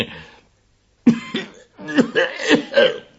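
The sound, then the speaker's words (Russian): A voice imitates an angry cough for a firework rocket character in a fairy-tale reading. A few harsh, throaty bursts come in an uneven rhythm after a short silence, moderately loud and gruff. “Сердито кашлянула ракета.”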